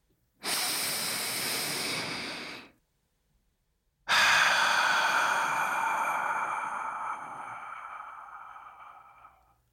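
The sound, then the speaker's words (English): One deep breath: a long, airy inhale, a short silent pause, then a longer, slow exhale that gradually fades away. “If you're ready, let's take a deep breath.”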